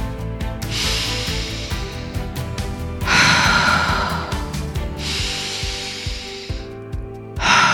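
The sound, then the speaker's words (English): Deep breathing in and out during a breathwork session: long, loud, airy breaths, each a rushing hiss lasting a second or more, with short pauses between them. “We are continuing to breathe this whole time. That's it.”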